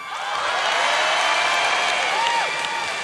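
Audience applause and cheering after a song: sustained clapping mixed with crowd noise, and a sliding whistle or whoop rising out of it near the end.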